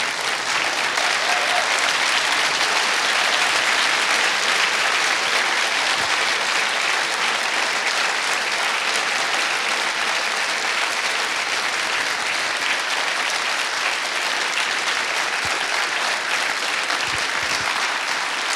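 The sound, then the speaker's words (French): Church audience applauding, a dense, sustained wash of clapping that stays loud and even from start to finish. “Est-ce qu'on peut se lever et acclamer le Seigneur avec vraiment de l'engouement ?”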